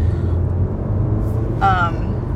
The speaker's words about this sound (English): If you've been listening to the podcast, if you're still tuned in, sorry, some traffic. I told y'all I was driving.